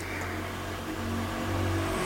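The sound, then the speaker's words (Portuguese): Car traffic passes on a busy street, a steady engine and tire rumble that slowly swells with a faint whirring rise, continuous throughout with no voices. “E vai ter moto passando, caminhão, carro passando, porque essa rua aqui é movimentada.”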